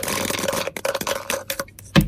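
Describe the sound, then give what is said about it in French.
Dice rolled in a board game: a quick rattle of many small clicks and knocks, finished by a louder clatter as they land. “je vous invite à lancer les dés, à donner le top.”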